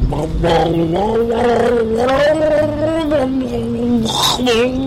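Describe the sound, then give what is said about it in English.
A person gargles ketchup in a random household, making a loud, wet, bubbling, warbling voiced sound that carries on almost without pause from start to finish. “Bag, I am gargling. Let me grab this ketchup and put it right here. A nice, supple suckle of the ketchup to gargle for this random household.”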